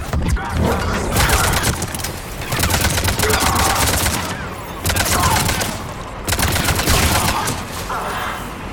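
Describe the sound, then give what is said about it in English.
Video game gunfire as an engineer deploying a turret is shot, heard as four loud, sustained volleys of rapid shots separated by brief gaps. “If you if you shoot up an engineer while he's deploying the turret, then you actually get the turret explosion effect to trigger, which kills the engineer, and it also killed the shield guy next to him.”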